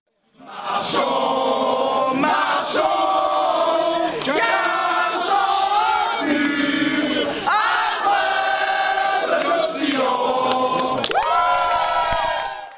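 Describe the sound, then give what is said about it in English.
French Green Party supporters on an election night sing the French national anthem and cheer, a loud chorus of many voices starting abruptly and continuing without a break, with shouts and cheering mixed into the singing. “Meanwhile, Green Party supporters sang the French national anthem and cheered”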